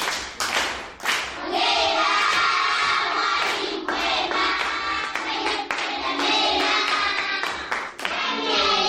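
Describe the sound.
Children on a Radio Joy children's program applaud their teacher with dense, steady clapping mixed with excited shouts and cheers, continuing at a strong level throughout with only brief dips.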